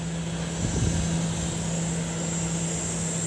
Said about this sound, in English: What you're hearing there are the sounds of a plane carrying 44 cubic metres of essential medical supplies.